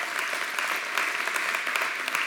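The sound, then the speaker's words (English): Applause from a church audience clapping during the offering, a dense, steady wash of many hands with small irregular peaks, continuous and fairly loud throughout. “If you're not used to clapping during an offering, it's a good day, right?”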